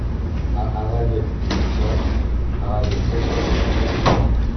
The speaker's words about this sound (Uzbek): eshik derazani yopib qo'yinglarchi